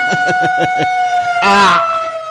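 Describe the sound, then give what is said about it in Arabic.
Air raid warning sirens sound in Bahrain, holding steady, sustained wailing tones throughout. Brief talk is heard over them near the start, and a louder surge of noise follows midway. “صفارات الإنذار تدوي في البحرين”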